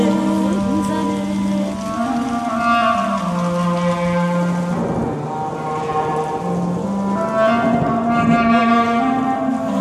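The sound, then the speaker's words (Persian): Steady rain patter falls beneath sustained, slowly shifting melodic tones, the wet hiss holding even throughout. “داره بارون میزنه.”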